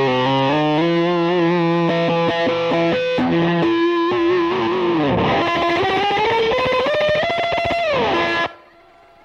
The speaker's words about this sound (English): I don't have a regular distortion hooked up. I just have this this like Big Muff clone.